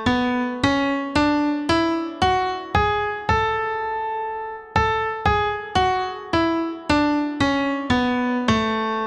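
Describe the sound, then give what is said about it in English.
A major scale played on an instrument, climbing eight clear, decaying notes and then stepping back down, with the top note held a little longer before the descent. The notes sound alone at an even, steady pace. “In this case, it's the A major scale. So it's A, B, C sharp, D, E, F sharp, G sharp, A.”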